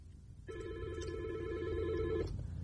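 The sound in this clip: A telephone rings for an incoming caller: one steady, sustained ring tone of just under two seconds, moderately loud above a low background rumble, with no talk over it.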